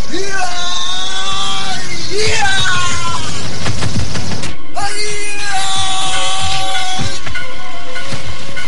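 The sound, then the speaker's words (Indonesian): A long, loud, dramatized yell, a warrior's cry in a fight against ranks of archers, held strongly with pitch rising at each onset, broken by a brief pause midway before it surges again over dense, noisy background. “Dan kemudian ia berteriak panjang.”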